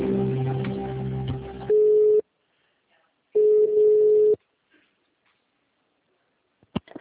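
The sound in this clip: Ringing tones while a phone call is being transferred: two long, steady, mid-pitched electronic tones of about a second each, separated by silence, followed later by a faint click.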